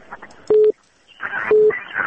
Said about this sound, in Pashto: متاسفانه چې تلیفون قطع شو